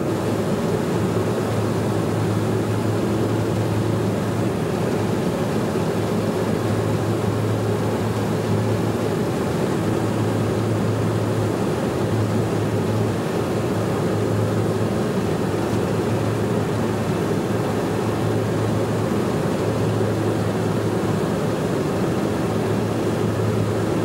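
Drone of an aircraft in flight, a steady, unbroken wash of engine noise that holds at an even, fairly loud level for the whole stretch, with no voices over it.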